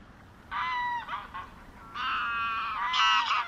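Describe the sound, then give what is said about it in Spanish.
Geese honk in the wetlands of Doñana National Park in southern Spain, giving harsh, nasal calls in two loud bursts over a faint, low background. “estamos escuchando los sonidos del Parque Nacional de Doñana”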